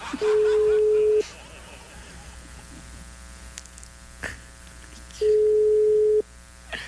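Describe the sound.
Ringback tone of an outgoing telephone call in Colombia: two steady, mid-pitched beeps, each about a second long, separated by a long gap filled with a faint low hum.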